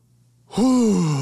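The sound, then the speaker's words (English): A deep breath let out as a single voiced sigh, opening loudly and then drawn out in a groaning exhale whose pitch slowly slides downward. “Deep breath, exhale.”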